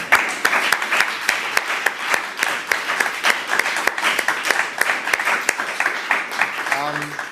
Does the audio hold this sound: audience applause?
yes